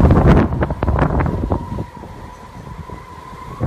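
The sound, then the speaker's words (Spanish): The tramontana wind blowing in Portbou, a loud, rough rushing roar buffeting the microphone. It is heavier at the start, then settles into a steady blustery hiss with no talking. “Aquí vive la tramuntana. Es el pueblo donde más sopla.”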